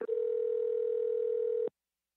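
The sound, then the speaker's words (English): A telephone dial tone sounds as a call is being dialed: a steady, single-pitched electronic hum lasting just under two seconds before cutting off abruptly into silence. “So now let's dial the fashionable Brentwood neighborhood of Los Angeles, California, and talk to our guest.”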